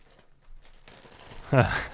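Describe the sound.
Soft crinkling of the wrapper of a pumpkin-shaped Reese's peanut butter cup as it is torn open, faint and scratchy, followed by a short louder vocal sound.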